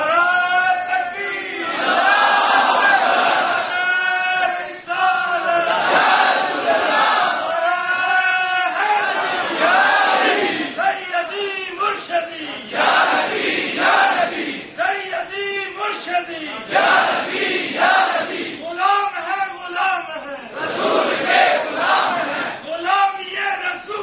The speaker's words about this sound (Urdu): ایک نعرہ لگاؤ تاکہ میں دیکھوں تھکے تو نہیں.